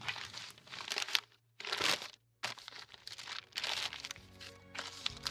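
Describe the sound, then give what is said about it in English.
Gift wrapping paper crinkling and rustling as a present is wrapped and taped, in a series of loud, crackling bursts broken by brief silent pauses. “I secure the final piece of tape on Briggs' last gift.”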